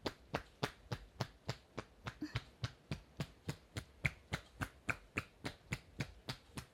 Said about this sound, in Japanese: ゆっくりとさすって、また叩き方を変えますね。